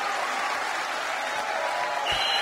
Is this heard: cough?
no